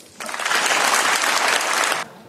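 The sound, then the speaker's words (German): Applause in the European Parliament in Strasbourg: a dense, loud burst of many hands clapping that starts abruptly, holds steady for about two seconds, then stops sharply. “es gab viel Applaus für Carney in dem Europäischen Parlament in Straßburg”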